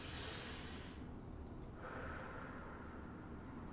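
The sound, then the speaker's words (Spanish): Slow, controlled exhaling during a breathing exercise: soft, breathy airflow with a short burst, a brief lull, then a longer steady breath, faint and without speech. “respira, a ver. Saca poco a poquito.”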